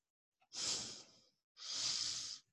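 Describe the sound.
Breathing out during a yoga exercise: two soft, airy, hissing breaths, each lasting about a second with a brief pause between, quiet and without talk.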